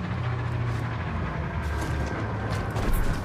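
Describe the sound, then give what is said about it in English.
A burning beam crashes down in a fire in the Star Wars Jedi: Survivor video game, heard as a dense, continuous roaring rumble with a slight swell near the end and no voices. “Ooh, fire. First beam's down, Gabs.”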